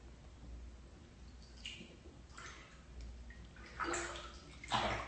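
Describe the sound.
Running water splashes and trickles during washing, a faint, steady wash of noise that swells into a few louder surges and splashes.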